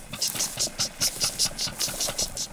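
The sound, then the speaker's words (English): Rhythmic mechanical thumping of oil derrick pumps, about 12 feet tall, working in the Osage County oil fields: a steady, rapid run of many evenly spaced pulses, each with a hissing, clanking top over a low rumble. “pumping of the oil derricks.”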